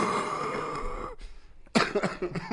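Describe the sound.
A wheezy, bronchial cough from someone congested with phlegm: a long, rasping, whistling exhale, a short quiet gap, then a sharp, loud cough burst with a rough, rattling tail.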